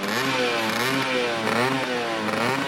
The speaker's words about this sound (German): Piaggio dieses Geräusch hörte, als der Motor lief, sagte er: Das klingt ja wie eine Wespe. Und dann gab man dem Fahrzeug diesen Namen: Vespa-Sound.